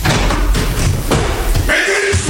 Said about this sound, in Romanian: În aceeași clipă, ușa se deschide brusc